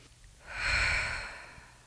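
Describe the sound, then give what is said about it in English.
A single deep breath is drawn in through the nose during a relaxation exercise: a soft, airy inhale that swells over about a second and then tapers away, alone and fairly quiet. “Take in a deep breath through your nose.”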